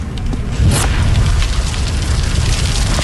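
Fire sound effect from an aspirin TV commercial: a loud, steady roar of flames with a sharp whooshing burst just after the start, then continuous crackling rumble to the end.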